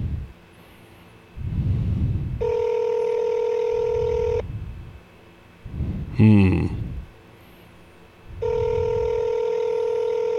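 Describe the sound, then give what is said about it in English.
Telephone tones on a call to a voicemail line: two long, steady electronic tones separated by a pause, with brief low sounds and a short warbling burst in between. “this is Darin Star, and you've reached the voicemail line for the drop set.”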